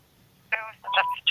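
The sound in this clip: Telephone keypad tones as a number is dialed: a few short, bright electronic beeps in quick succession, fairly loud against a quiet background.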